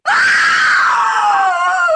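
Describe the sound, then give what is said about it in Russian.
An inhuman scream rings out in a smoky apartment stairwell scene: one loud, sustained, harsh cry held for about two seconds, its pitch sliding slowly downward toward the end. “Слышен нечеловеческий крик.”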